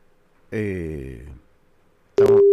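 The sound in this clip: Telephone tone on an outgoing call: a brief voice, a short gap, then a loud steady electronic tone that begins and runs to the end.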